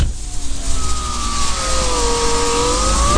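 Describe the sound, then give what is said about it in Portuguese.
An electric window opens on a car that is not very new. A steady motor whine slowly drifts in pitch over a low engine rumble, loud and continuous with no talk. “É abrir o vidro do carro!”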